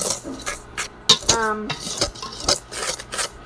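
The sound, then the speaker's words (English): Dry baking ingredients are mixed together, giving a series of irregular scraping, rasping strokes of a utensil against a bowl. The strokes come in uneven bursts with brief quieter gaps between them. “So now I'm going to mix up my dry ingredients until well combined.”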